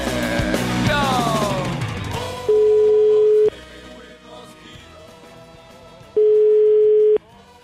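Telephone ringing tone on a line before a call is answered: two long, steady, mid-pitched beeps, each about a second, separated by a gap. The first comes right after a dense, noisy passage and the second sits over a quieter background.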